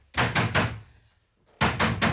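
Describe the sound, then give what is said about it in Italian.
Someone pounds on a door, trying to break it down. Three loud, heavy thuds come in quick succession, then a short pause, then three more blows in the same rhythm. “O butterò giù la porta!”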